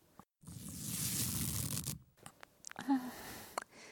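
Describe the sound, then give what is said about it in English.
Clothing being cut through: a sustained, faint rasping tear of fabric lasting over a second, followed by a few short scratchy snips and rustles. “Don't worry, I'm not going to cut your body open, just your clothes.”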